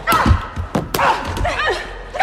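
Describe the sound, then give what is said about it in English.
Punches and kicks in a fistfight inside a fighting ring land as a few dull, heavy thuds and thumps, mixed with voices. “Molly punches Christina down and kicks her”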